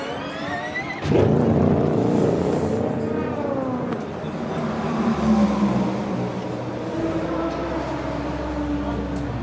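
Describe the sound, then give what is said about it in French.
Race cars entering pit lane during an endurance race, among them Ferraris and Toyotas: a loud, continuous engine roar with a whining tone that shifts in pitch, sustained throughout. “The 38 and the 50 both come to pit lane. The other Ferrari is also in.”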